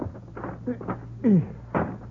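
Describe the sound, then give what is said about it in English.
A window is pulled open in an old-fashioned apartment scene, giving a few soft scraping knocks and then a short, loud creaking squeal followed by one more thump over a low steady hum. “Will you help me open this window? Oh, sure.”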